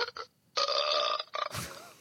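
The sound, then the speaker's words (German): A burp sound effect from a soundboard app, billed as an Italian burp: short tonal, ringing bursts and a longer sustained tone, then a rougher, lower belch-like blast at the end. “Italienischer Rülpser. Oh Gott. Das soll ein Rülpser darstellen.”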